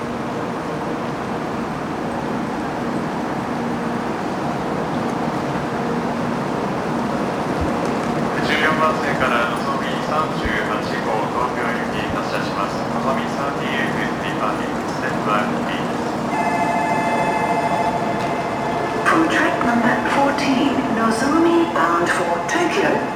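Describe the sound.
Train departing from a station platform, a continuous dense rumble running throughout, with bright tonal whines and chime-like tones joining partway through and voices speaking over the noise.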